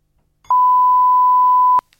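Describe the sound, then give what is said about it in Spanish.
Answering machine beep: one steady, mid-pitched electronic tone lasting a little over a second, clean and alone between short stretches of near silence. “No sé qué pasa con las líneas telefónicas, que creo que no aciertan, pero bueno, esto es lo que nos ha llegado a nuestro contestador.”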